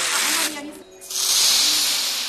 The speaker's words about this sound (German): Aus einer Dose wird eiskalte Luft auf die Kopfhaut geblasen, sodass sofort ein erfrischendes Gefühl auftritt